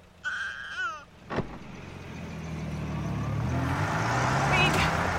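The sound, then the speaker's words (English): A car pulls away in reverse: a brief high tonal sound and a sharp knock come first, then engine and road noise swell steadily louder to the end. “The woman pulls away in reverse in their vehicle.”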